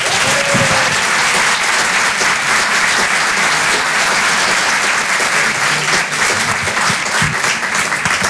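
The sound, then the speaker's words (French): An audience applauds a stand-up comedian as he takes the stage, the clapping loud, dense and continuous for several seconds. “Je vous demande de l'encourager. Faites un maximum de bruit, s'il vous plaît, pour Aymeric Carré.”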